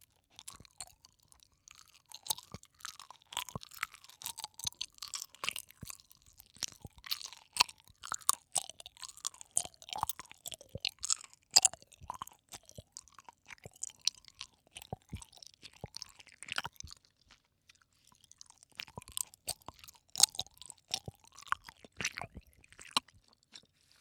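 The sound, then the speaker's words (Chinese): Chewing of soft gummy bear candies fills the stretch: many sticky, squishy bites and moist smacks in an irregular stream, quiet overall, with a brief lull partway through before the chewing resumes. “这个小熊软糖看起来好好吃。尝一个，应该是不同口味的。好软，”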